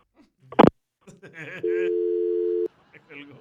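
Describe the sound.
A steady telephone tone, one unbroken mid-pitched hum lasting about a second, sounds during a call to a radio listener, with a sharp loud click before it and people talking around it.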